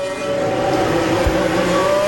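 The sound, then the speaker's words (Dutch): Formula 1 cars, McLarens among them, head out of the pits in a line onto the track for a final qualifying run, a loud, sustained engine drone with a steady high whine and no break. “McLaren zit, ja, iedereen in slagvolgorde naar buiten.”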